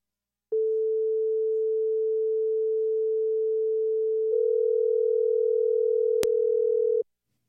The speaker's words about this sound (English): The next one I'm going to show you is the sound of a call ringing. And I'm going to put this one to 480. So one is 440 and one is 480.